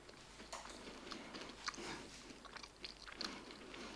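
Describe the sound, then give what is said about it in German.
Crunchy bites and chewing of a slightly burnt home-baked Christmas cookie: a few soft, crisp crunches and moist chewing noises in irregular rhythm, fairly quiet throughout. “So, ich esse jetzt so ein Ei von so einem Penis.”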